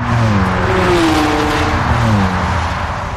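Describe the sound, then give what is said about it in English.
A car engine drives and revs on a road in Germany, a loud, continuous roar whose pitch shifts up and down as it runs. “I'm never going to get used to driving in Germany.”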